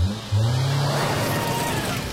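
An SUV driving: a steady, broad road and engine roar that holds at an even level after a short lower hum at the start.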